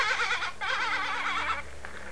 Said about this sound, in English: Yeah, the lamb says bah. The sheep goes.